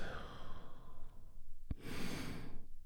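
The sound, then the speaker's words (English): A deep breath in and out during a guided healing meditation: a soft, airy breath, a brief click, then a long, full exhale that holds steady before fading. “as we begin with a big, deep healing breath. All together, here we go. And release.”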